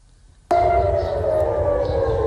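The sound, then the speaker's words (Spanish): Civil defense air raid sirens sound during a missile attack over Jerusalem and Israel. After a brief quiet, a loud, steady wailing tone starts suddenly and holds over a low rumble. “Sí, sonaban las sirenas y las intercepciones sobre Jerusalén, pero alarmas que han sonado también sobre todo el centro y el norte del país.”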